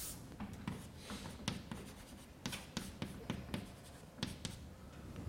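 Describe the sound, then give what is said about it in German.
Handwriting as formulas are written out, with many quick, scratchy pen strokes in an irregular rhythm and short pauses between strokes. “Ich schreibe es noch ein bisschen weiter vorne hin.”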